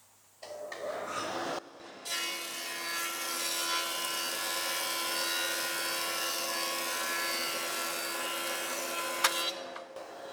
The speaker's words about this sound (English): So the other machine we're moving over to is the is a Jet 20-inch thicknesser, and it's got an induction motor in it. So the motors run quieter, so the cutter block is the thing that's going to be more predominant in the overall sound